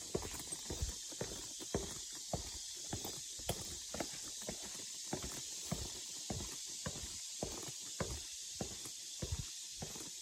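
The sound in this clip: Footsteps walking along a trail, with many evenly spaced steps in a steady, unhurried rhythm over a constant soft hiss and no talk.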